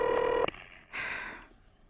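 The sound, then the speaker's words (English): An old-fashioned telephone rings: a steady, buzzing ringing tone cuts off abruptly, and after a short pause a brighter, noisier burst follows, with no one speaking. “Oh, answer the phone, for heaven's sake.”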